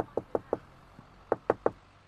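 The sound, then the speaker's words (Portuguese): Knocking on a door: two sets of three sharp raps with a single faint tap between them, heard alone. “bata a porta.”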